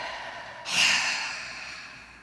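A single deep breath during a guided relaxation check-in: one airy, breathy rush of air swells suddenly, then fades slowly into quiet. No one speaks.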